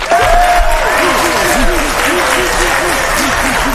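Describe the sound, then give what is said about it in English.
Audience applause at a political event honoring a congresswoman: a steady, loud wash of clapping that holds throughout, with a voice sounding over it. “Please give her a big round of applause.”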